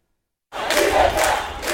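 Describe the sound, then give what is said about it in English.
A crowd of protesters yells slogans in the streets of Havana in front of police. The loud massed shouting bursts in abruptly after a brief silence and stays strong to the end. “Calling for liberty, protesters take to the streets in Havana. In front of police, the crowd yells, "Fatherland and life," a new opposition slogan”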